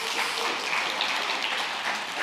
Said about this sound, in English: Let's give a round of applause for that.